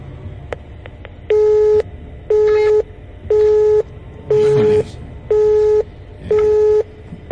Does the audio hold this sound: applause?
no